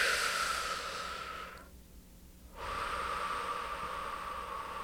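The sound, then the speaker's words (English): A deep breath taken during a guided relaxation exercise: a long, airy, hissing breath, a brief quiet pause, then another sustained breath. “Good, take a deep breath.”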